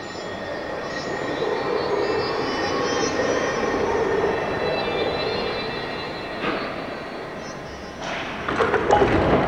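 A moving train rumbles steadily with a broad, continuous rattling roar, holding an even level before a few sharper clattering bursts stand out toward the end.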